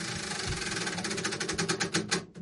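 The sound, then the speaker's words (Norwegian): A prize wheel of fortune spinning, giving off a rapid, continuous ratcheting tick that grows more distinct toward the end before it stops. “ho kjør en gang lykkehjulet”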